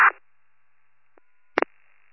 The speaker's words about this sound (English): I tried the number again. Rings to voicemail again.